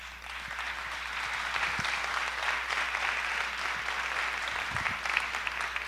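An audience at a bullfighting journalism congress applauds in a steady, dense ovation of many clapping hands, sustained at even loudness from start to finish.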